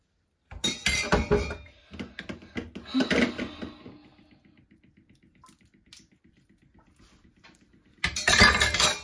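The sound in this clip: A bowl that held yeast is handled and wiped by hand: bursts of clanking and clinking, then a quieter stretch of soft, rhythmic rubbing, and finally another loud rattle.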